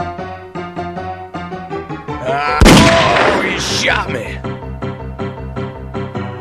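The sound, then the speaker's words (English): A single loud gunshot bursts out during a video game ambush on horseback, a sharp blast that rings off slowly over steady, rhythmic game music. “Oh, he shot me. He shot me.”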